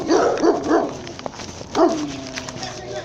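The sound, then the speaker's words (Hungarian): A dog barks in a few sharp bursts: a quick run of three barks, then a pause and one more louder bark, with softer rustling in between. “Kutyus, gyere ide! Kis kutya!”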